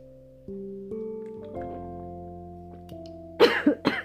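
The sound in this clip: Two sharp coughs from someone choking on something that went down the wrong pipe, bursting out suddenly after a run of steady, sustained musical tones that keep humming underneath.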